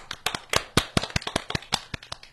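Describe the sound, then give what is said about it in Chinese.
Hand claps from a small group welcoming parents onto a children's program recording: a sparse, irregular run of many sharp individual claps, each distinct and separate, with no voices. “来，我们掌声欢迎我们的家长。”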